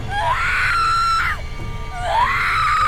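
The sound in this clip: A woman screams twice, each long, high-pitched cry rising sharply at onset and then holding a steady, piercing tone, with a brief quieter gap between the two screams.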